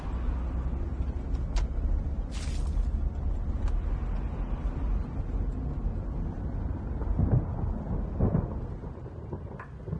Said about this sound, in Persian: توی ماشین شیشه های ماشین از بارون خیس شده.